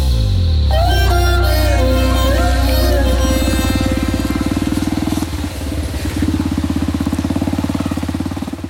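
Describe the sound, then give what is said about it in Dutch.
Motorcycle engine pulling away, a loud, continuous throbbing rumble that revs with a rising tone early on and then settles into a steady, pulsing drive to the end. “Op de motor vertrekken we naar een Duits huis in de buurt waar geen bewaking is.”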